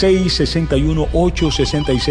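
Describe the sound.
A telephone rings with a repeating electronic tone under continuous talk during a call-in segment.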